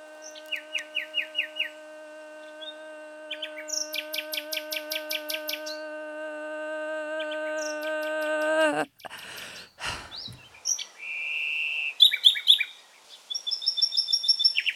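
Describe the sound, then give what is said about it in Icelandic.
A nightingale sings a varied song of rapid repeated trills, pure sustained whistles and sharp chirps. The phrases come in bursts with short gaps, and a harsh buzzy passage falls in the middle. “Til dæmis getur næturgali sungið án pásu í alltaf 18 mínútur, mun lengur en flestir mennskir söngvarar.”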